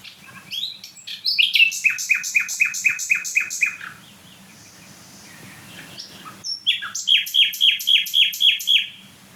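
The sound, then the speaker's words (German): A nightingale sings loudly in rapid, repeated notes. Two bursts of fast chirping trills are split by a quieter pause, over a faint low background hum. “Also hier stehen die wieder mal von der Nachtigall. Boah, die richtig Gas gibt.”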